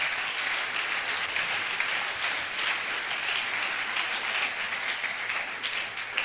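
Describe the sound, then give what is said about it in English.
Applause from an audience clapping hands, a dense, steady wash of many claps holding at an even level for the whole stretch, with no voices over it. “Oh, you can clap your hands.”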